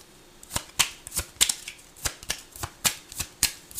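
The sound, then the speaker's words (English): Tarot cards are shuffled by hand in a rhythmic run of many crisp, papery slaps and riffles, each sharp and evenly spaced, with no voices. “Hold on. Two cards fell out. The moon.”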